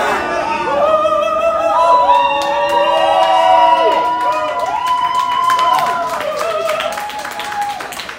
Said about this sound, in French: La foule a réagi fort lorsque la personne a interrompu l'événement et s'est fait sortir par la suite. On écoute le tout.